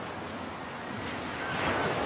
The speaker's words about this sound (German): Wenn du gerne möchtest, dann gehe ein Stück mit den Füßen in das Wasser und setze deinen Weg fort durch das türkis schimmernde Wasser des Ozeans.